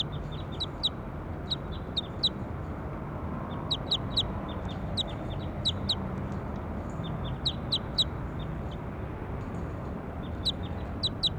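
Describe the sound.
A bird chirps repeatedly, giving many short, high-pitched notes in quick clusters, fairly faint above a steady low background hiss.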